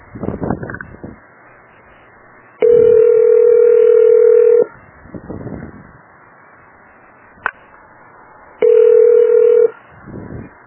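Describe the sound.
Telephone ringing tones on a call to a business line: two long, steady low-pitched tones separated by a pause, with brief sharp clicks and some muffled sounds in between.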